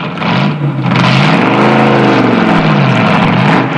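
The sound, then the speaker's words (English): A hot rod car's engine revs loudly and throatily as it backs out of a garage, its pitch climbing and then easing back down, with a steady rumble underneath and no talk. “backs his hot rod out of a garage.”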